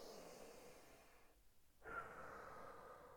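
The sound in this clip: Deep, slow breathing as someone calms themselves: a long, steady airy breath, a brief pause, then a second long breath, both soft and unaccompanied by talk.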